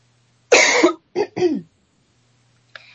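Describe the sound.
Coughing and throat clearing by a person with something caught in the throat: a few short, harsh, raspy bursts separated by brief pauses, with a faint final catch and no talk.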